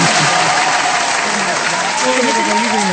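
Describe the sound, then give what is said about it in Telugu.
Audience applause for a song, a dense, steady wash of clapping that holds at an even loudness throughout, with voices faintly audible over it. “మామూలుగా చప్పట్లు కొట్టకూడదు sir ఈ పాటకైతే.”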